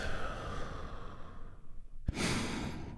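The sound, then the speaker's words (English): A group takes one deep, healing breath together during a guided relaxation: a long, hushed inhale of about two seconds, then a sudden, loud, breathy release. “And we do that by taking a big, deep, healing breath all together. Here we go. And release.”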